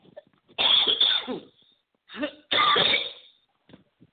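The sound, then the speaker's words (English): Coughing from a tickle in the throat: a long, harsh cough burst, a brief catch, then another harsh cough, loud and alone with no talk. “Excuse me. Got a little tickle in my throat there.”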